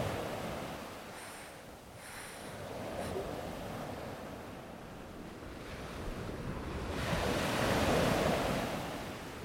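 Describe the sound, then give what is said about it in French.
Ocean surf washing in waves, a continuous rushing hiss with wind noise that ebbs slightly and then swells louder toward the end. “les vagues qui montent. Et là, j'entends l'eau, il me caresse.”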